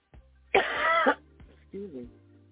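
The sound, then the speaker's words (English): A person with a lingering week-long cough lets out one harsh, rough burst, followed by quieter throaty voiced sounds. “I've got this stupid cough, so it's been driving me crazy all week”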